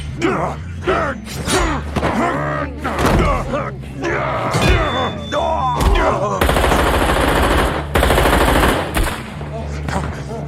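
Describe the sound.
Gunfire in an audio drama fight scene: repeated bursts of automatic fire and single shots, loud and harsh, mixed with voices, groans and thuds, ending in a dense, sustained volley.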